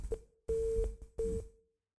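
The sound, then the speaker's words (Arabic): Busy tone on a phone line after a call disconnects: a few steady mid-pitched beeps broken by short gaps, loud and clear with no talk over them. “انقطع اتصال الاخ صالح”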